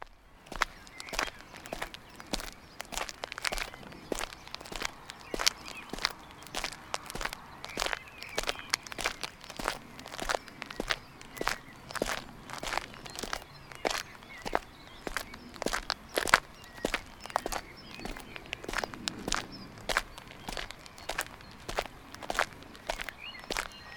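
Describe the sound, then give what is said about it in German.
Footsteps walking back along a path toward a bridge over the Leine river through floodplain meadows, many steady, evenly paced steps that crunch clearly and continue throughout with no voices. “Nun gehen wir zurück bis zur Leinebrücke. Auf dem Weg, den wir gekommen sind.”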